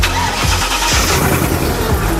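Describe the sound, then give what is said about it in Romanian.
Car engine starting and running: a 4x4 with a naturally aspirated petrol V8 of about 350 horsepower fires up into a loud, steady, rough roar that holds for the whole moment, with no voices. “contact, o pornim.”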